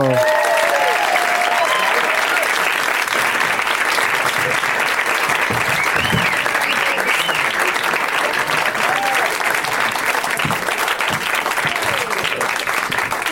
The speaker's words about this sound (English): Please, everybody, give a big warm welcome to Patrick Moot, Moshe Kasher, and John DiMaggio.